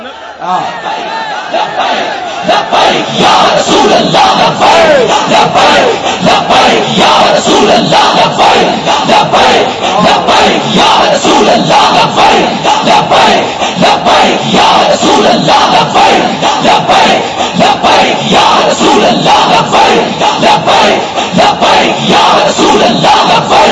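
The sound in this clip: A large crowd chanting Labbaik slogans, a loud, dense roar of many voices that stays sustained for the whole stretch after a brief quieter start, with a steady pulsing rhythm.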